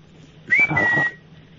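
A single human whistle, a short, clear, high note that swoops up quickly and then holds steady with a tiny break, lasting just over half a second and standing alone against quiet.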